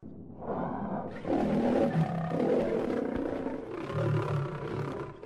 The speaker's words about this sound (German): Was ist es? Der Beutelwolf.